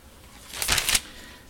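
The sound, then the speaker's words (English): Bible pages are flipped during a sermon, making a single short papery rustle of about half a second. The rustle is bright and fairly loud against a quiet background. “Flip over, we're almost done here. Flip over to Matthew 13.”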